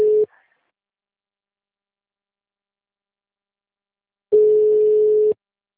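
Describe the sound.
A telephone line tone while a call is being placed: a steady single-pitched hum cut off at the start, then silence, then one full tone lasting about a second.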